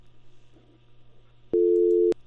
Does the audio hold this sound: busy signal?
yes

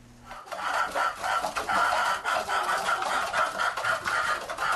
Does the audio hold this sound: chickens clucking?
yes

